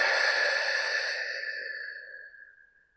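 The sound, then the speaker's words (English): A deep breath out through the mouth: a long, breathy sigh-like exhale that starts fairly strong and fades away slowly over about three seconds. “So we're going to take a deep breath together in through the nose, down through the mouth.”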